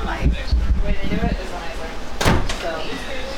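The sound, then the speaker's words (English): A house door that previously failed to latch is slammed shut, giving one sharp, brief thud partway through while people keep talking. “You have to slam that door. That's another thing. This door... The door didn't lock before. Like, it didn't latch.”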